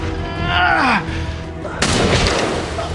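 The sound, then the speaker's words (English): A gunshot effect in an audio drama as a woman shoots a man in the leg: one sudden loud blast follows a voice, then a long noisy tail. “She shoots him in the other leg.”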